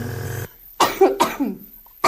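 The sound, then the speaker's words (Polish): A short burst of several harsh coughs from a person with a chronic illness, following closely on one another after a brief quiet gap, moderately loud and with no talk over them. “Jeszcze zatrzymaj, już się kasłać chce.”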